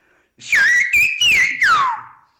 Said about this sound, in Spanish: Y ahora voy a silbar, por ejemplo, una expresión mucho más común, como por ejemplo cuando no entiendes una frase y dices, yo no te entiendo.